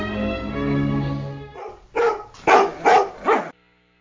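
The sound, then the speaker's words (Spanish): Dog barking in a short series of sharp, mid-pitched barks after a steady harmonic tone that fades out. “Los perros de Pavlov.”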